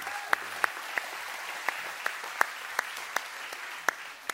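Audience applause welcoming a missionary to the stage: a steady wash of clapping with a number of sharper individual claps popping out at fairly regular intervals, no voices over it.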